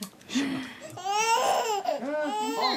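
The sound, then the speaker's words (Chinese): An infant son cries in a few wavering, rising and falling wails, moderately loud, with a short, quieter whimper at the start. “你看你给他弄哭了吧。我儿子都替我生气。”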